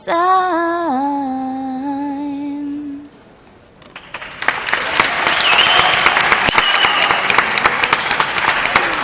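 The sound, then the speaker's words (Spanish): Applause from colleagues at a university radio station follows the fading end of a sung note, building into loud, dense clapping that continues steadily for about five seconds. “Este es el aplauso que recibes de todos tus compañeros”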